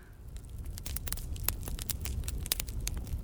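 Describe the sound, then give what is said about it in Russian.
A bonfire in a forest clearing, only just starting to burn, crackles faintly. Many small irregular pops and snaps sound over a low, steady rumble. “Костер на поляне только начинал разгораться и давал недостаточно света”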